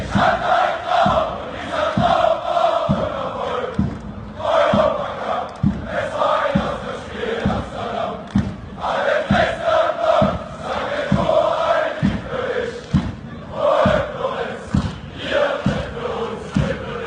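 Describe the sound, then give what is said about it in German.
Dynamo Dresden fans in the stadium stand sing a chant together, a loud, sustained crowd melody over steady, evenly spaced low thumps that keep a regular beat throughout. “wollen wir einmal ganz kurz hören, um welchen Song es sich handelt, okay, und wie sich das anhört, wenn die Kurve bei Dynamo Dresden das singt.”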